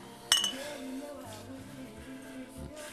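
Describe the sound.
Drinking glasses clink together in a toast: one bright, short clink near the start, followed by a quiet, steady background tone with no further impacts.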